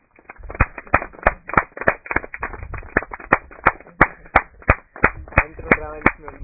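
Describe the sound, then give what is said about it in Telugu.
A group of people clap their hands in a steady, rhythmic beat of sharp, loud claps that continues throughout, with faint voices underneath. “సరేలే, it's okay, దామ్మ చప్పట్లు కొట్టండి.”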